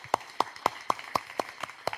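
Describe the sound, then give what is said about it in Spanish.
Rhythmic clapping from a church audience applauding the Lord: eight sharp claps land evenly, about a quarter second apart, at a moderate level. “Ponte de pie y dale un aplauso al Señor.”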